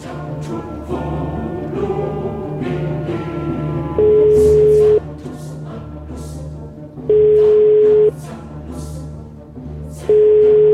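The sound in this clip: Telephone tone heard while calling someone: three steady, mid-pitched beeps about one second long at regular intervals over a continuous background bed.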